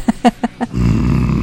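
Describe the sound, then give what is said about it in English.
A human voice imitating a growl: a few short grunting pulses, then a sustained low, rough, rasping rumble that holds steadily to the end. “He's growling at people.”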